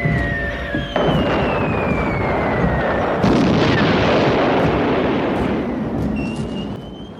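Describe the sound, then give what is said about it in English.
Falling bombs and explosions make a dense, continuous roaring rumble, with high whistling tones that glide downward over a second or two like bombs dropping, and sharper blasts breaking through the din. “Screeching sirens, falling bombs. It is not safe here.”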